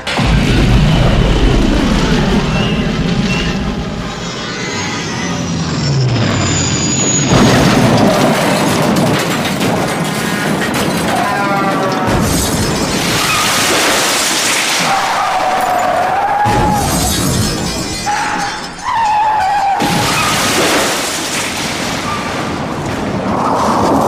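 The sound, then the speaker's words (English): Roaring spaceship sound effects as the craft drops out of light speed and crash-lands on a planet: a dense, loud, continuous rumble with whooshing sweeps and heavy booms that barely let up. “Take us out of light speed. We're about to crash land on that planet.”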